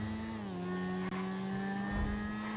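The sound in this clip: A video game car engine drones as the car runs a player over. The hum is loud and steady, dips slightly in pitch early on, and is broken by one brief click midway.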